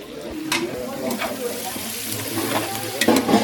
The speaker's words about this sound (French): on est en train de rajouter dans le boucané les oignons finement émincés, des oignons rouges. Hein. Et on va bien faire colorer les oignons,